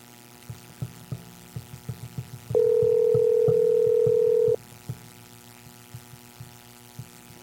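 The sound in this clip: A telephone tone sounds while a call is placed to a power company office: one steady, mid-pitched tone lasting about two seconds, with faint regular low ticking before and after it.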